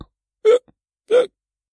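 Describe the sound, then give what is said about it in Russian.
Two short, abrupt hiccups from a drunken man, separated by a brief pause. Each is a quick voiced burst, heard alone without talk. “заговорил пьяница, но вдруг начал икать”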